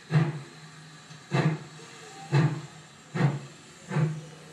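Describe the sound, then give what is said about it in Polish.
Distorted sound of a train starting to move: five evenly spaced, hissing chuffs with a low thud at each burst, repeating at a steady pace over faint background hiss. “I słyszymy, że to był dźwięk jakby ruszającego pociągu.”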